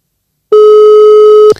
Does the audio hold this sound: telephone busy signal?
yes

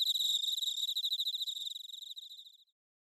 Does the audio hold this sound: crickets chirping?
yes

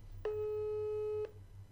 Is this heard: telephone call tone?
yes

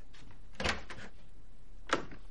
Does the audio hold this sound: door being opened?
yes

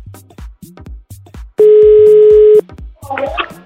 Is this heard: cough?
no

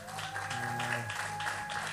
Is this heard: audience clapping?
yes

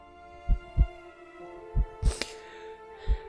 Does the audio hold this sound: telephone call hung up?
no

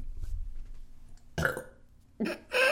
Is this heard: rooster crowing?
no

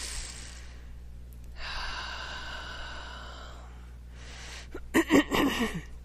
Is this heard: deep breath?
yes

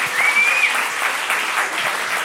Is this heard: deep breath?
no

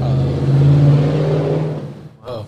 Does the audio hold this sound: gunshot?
no

